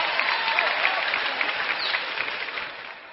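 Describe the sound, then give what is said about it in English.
Studio audience applause at the Grand Ole Opry welcoming a country singer: dense, steady clapping that fills the whole clip on its own and eases slightly toward the end. “Let's see what a great big welcome you can give this good-looking young fellow who sure knows how to sing a fine country song, that Star Day recording artist, George Jones.”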